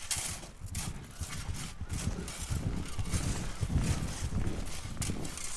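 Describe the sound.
Hoofbeats of a white horse approaching: a steady, moderately faint clip-clop rhythm that grows slightly louder over its course, with no voices.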